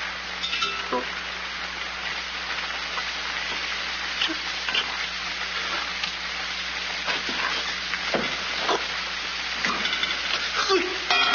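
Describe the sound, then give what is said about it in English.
Sizzling of two fresh eggs frying in a pan for an omelet: a steady, dense crackle and hiss runs throughout, with small pops scattered through it. “Make me a small omelet. 2 eggs? 22. 22. Fresh laid this morning.”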